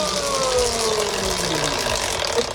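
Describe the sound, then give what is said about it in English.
A prize wheel clicks through a big spin, with rapid, steady ratchet-like ticking and a low whirring hum running throughout. “let's spin the wheel. Do you want a big spin or a little spin? Big spin.”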